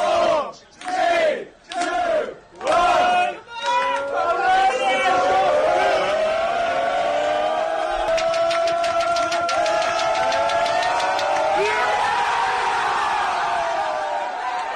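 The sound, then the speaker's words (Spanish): Professional football players shout and cheer together, celebrating at a match's final whistle. It opens with a few short bursts of yelling, then swells into sustained loud group cheering, with rapid clapping partway through. “El sonido de los futbolistas del Liverpool, ¿eh? Jugadores del Liverpool.”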